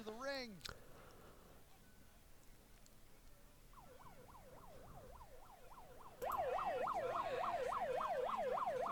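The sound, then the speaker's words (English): A siren wails in rapid up-and-down sweeps at a wrestling event's ringside area, entering midway and jumping louder for the final seconds while commentary voices are heard. “It's a siren of some sort.”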